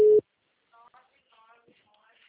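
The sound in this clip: Telephone busy tone after a dropped call: one short, loud, steady low beep at the very start, followed by faint, quiet speech.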